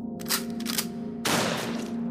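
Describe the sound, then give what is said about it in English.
Gunshots are fired at a lobster droid as an audio drama effect: a few sharp, loud cracks over a steady droning hum, with the last blast ringing out longer. “Why are we heading into enemy territory? Tess asked as she unloaded two rounds into a lobster droid before its shiny claw could clamp around her right ankle.”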